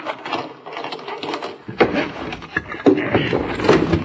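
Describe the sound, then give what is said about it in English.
A sliding door is unlocked and slid open, giving a rough, continuous rumbling scrape with a few sharper knocks and rattles. “slide that door back”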